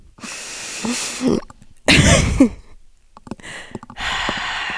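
A person coughs and chokes while breathing in: several harsh, breathy bursts of uneven length, with the loudest and roughest one near the middle, separated by brief pauses.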